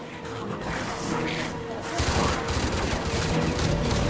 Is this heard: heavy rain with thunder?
no

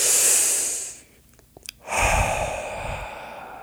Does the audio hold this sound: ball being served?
no

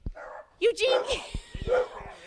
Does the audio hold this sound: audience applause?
no

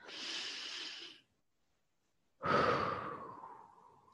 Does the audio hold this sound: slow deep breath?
yes

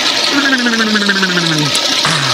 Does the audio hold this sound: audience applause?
no

